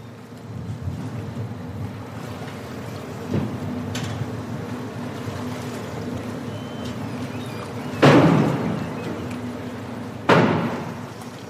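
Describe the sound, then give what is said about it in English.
A ferry pulls into Helsinki harbour with a low, steady engine rumble and hum, broken by a few heavy thuds, the later ones louder and followed by a brief rush. “That is the sound of a ferry pulling into Helsinki harbour.”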